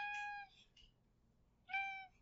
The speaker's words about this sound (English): I missed you too, Apollo. You know, you're the clingiest cat I've ever met.